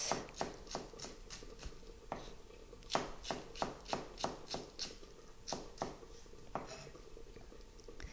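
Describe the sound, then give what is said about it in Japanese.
Crisp knife strikes on a cutting board as a vegetable is cut into thin julienne strips after being sliced into 5 cm rounds and halved lengthwise. Many quick, faint, evenly paced chops come in short runs with brief pauses. “5センチぐらいの幅に筒切りにして、それから縦半分に切ります。そしてそれを端から千切りにしていきます。”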